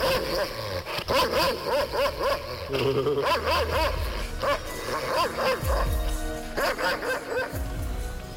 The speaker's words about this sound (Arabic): صوت الكلب، أنا كنت هموت. حتى بص يمين وشمال عشان اشوف الكلب ده جاي منين، مش لاقي كلاب. الصوت طالع منين؟